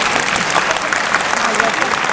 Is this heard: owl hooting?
no